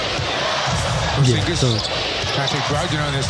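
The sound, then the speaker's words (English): Arena crowd noise from a Detroit Pistons game against Washington, a steady roar with a commentator's voice talking over it and brief court sounds mixed in. “I just want to play this clip where you won't see it, but you will know that Cornette takes the leap and Jordan Goodwin is not able to make the shot.”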